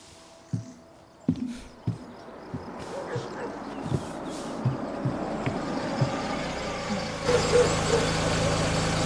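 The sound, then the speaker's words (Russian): A car drives up to a house: low engine rumble and road noise carry a few dull knocks and thumps early on, and the engine sound swells noticeably louder near the end. “К дому подъехал Гриша.”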